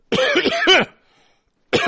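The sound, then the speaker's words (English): Coughing from one person: a cluster of harsh, rapid bursts, a short silent gap, then one more burst at the end. “I was muted and trying to get myself off mic. I was coughing.”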